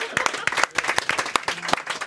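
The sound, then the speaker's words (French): Applause from a TV talk-show audience: scattered, irregular sharp claps rather than a dense roar, fairly faint and uneven in loudness. “On a un petit minute d'applaudissement pour le départ de Jean-Sébastien.”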